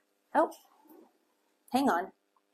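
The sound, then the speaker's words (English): Two short barks or yelps from a dog, each a harmonic, mid-pitched burst about a third of a second long, separated by a pause of over a second, with a softer trailing sound after the first. “I think it's a dog. Sorry.”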